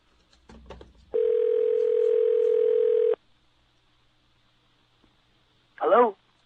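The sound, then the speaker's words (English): A telephone dial tone hums steadily for about two seconds after a few handling clicks, then stops; a short, brief burst of sound follows after a pause. “So go to our magic little phone here.”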